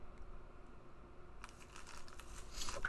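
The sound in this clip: Soft crinkling and rustling as a package of hockey trading cards, sealed like a brick of cards, is handled. The sound is faint and scattered at first, then becomes brighter, busier crackling toward the end.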